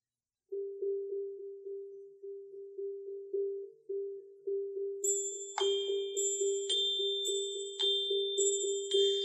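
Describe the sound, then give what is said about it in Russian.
A small bell rings in a steady, rhythmic run of many bright, quick dings, heard alone. Partway through, a second, higher-pitched chime joins in. “Давай и мы возьмем колокольчик.”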